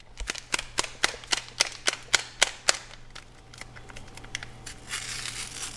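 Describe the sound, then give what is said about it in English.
Metal spoon clanging against the sides of an aluminum pot while stirring a chili-powder and sazon dish: a quick, steady run of sharp, bright clinks that gives way to a duller, continuous scraping hiss. “Like as she's stirring, her spoon clanging loudly as it hits the sides of the aluminum pot”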